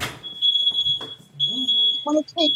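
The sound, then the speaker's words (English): A smoke alarm beeps with a high, piercing electronic tone in two long sustained bursts, heard under people talking. “It's our smoke alarm. And I will mute.”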